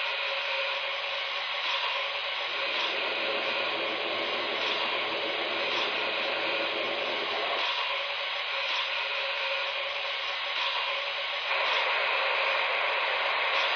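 A steam boiler blowdown releases a continuous, loud rushing hiss that holds steady for the whole stretch, with slight shifts in its low rumble partway through.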